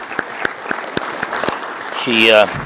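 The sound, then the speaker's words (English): Audience applause breaks out in a burst of clapping at a church gathering, with sharp individual claps at first swelling into dense, loud applause before ending abruptly, a voice briefly heard over it. “She doesn't want anybody to clap for her”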